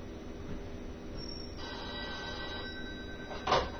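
A telephone rings in an Italian comedy sketch with a continuous, buzzy electronic tone that holds steady, then swells briefly louder near the end.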